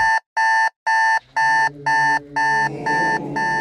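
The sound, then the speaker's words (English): An electric alarm clock on a chest of drawers beside a bed rings loudly with a shrill, evenly pulsed electronic beep, about eight bursts in steady rhythm, while a rougher low noise builds beneath the later bursts. “the alarm clock, which sat on a chest of drawers beside the bed, just suddenly burst into loud life. The room was filled with the piercing shriek of an electric alarm.”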